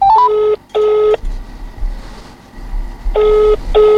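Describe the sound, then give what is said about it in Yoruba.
Electronic telephone tones as a call is dialed into a radio program: a quick rising run of beeps, then steady ringing tone bursts in pairs with a low hum in the pause between. “Ògo gbé kọ́ọ̀lù Global Grace ti dé o.”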